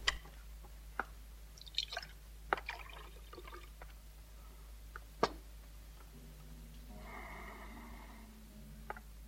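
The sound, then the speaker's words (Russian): A drink is poured: faint scattered clinks and taps, then a short, soft pouring stream of liquid near the end, all quiet with no talk. “Горбатый наливает Шарапову.”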